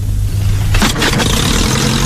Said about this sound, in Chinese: 他率先跳上了飞机。 启动。